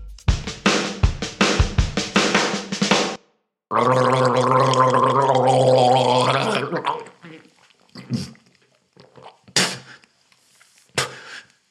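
Gargling mouthwash: a few short bursts, then a loud, sustained bubbling gargle of about three seconds, followed by a few brief sharp sounds and quieter noises.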